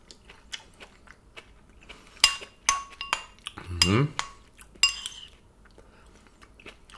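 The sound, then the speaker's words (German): Cutlery clinks against a bowl while someone eats tomato salad that has marinated for two hours. A few sharp metallic taps stand out over quiet chewing and soft mouth sounds. “Tomatensalat? So, das Zeug hat jetzt 2 Stunden gezogen. Ich habe mir ein bisschen was in eine Schüssel getan. Und jetzt probieren wir mal, wie es schmeckt.”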